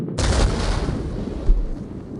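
An artillery gun fires at a tripod war machine, letting out a sudden loud blast that trails into a long rumbling decay, with one further low thump partway through.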